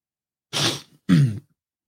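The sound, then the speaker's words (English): Two loud sniffles in quick succession, each a short, breathy rush of air through the nose, with silence before and after. “sorry for the sniffle”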